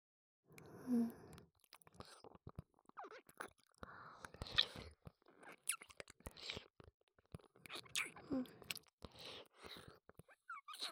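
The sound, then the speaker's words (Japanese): Close-up eating with crunchy chewing and moist mouth noises, many irregular bites and smacks, faint and intimate, with short pauses between bursts. “いただきます。せっかくですから、ごっくんの音もお聞きください。”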